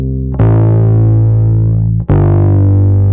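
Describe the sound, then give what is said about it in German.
Audio processed through Logic's built-in distortion plugin gives a loud, buzzy sustained tone with rich harmonics. It sounds as two long notes, the second starting after a brief dip, with no voices. “Und wir können ja mal hier reindrehen, ein bisschen Verzerrung. So, ne, das ist das Plugin von Logic, was hier mitgeliefert ist, einfach das Distortion-Plugin.”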